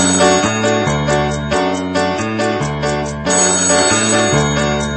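A telephone ringing with a bright electronic ringtone, a loud, continuous melodic pattern of chiming notes that loops over and over.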